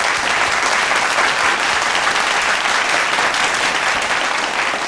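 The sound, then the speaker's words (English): Audience applause, a loud, even, sustained wash of many hands clapping that holds steady for the whole stretch with no talk over it. “That's a nice long applause for you.”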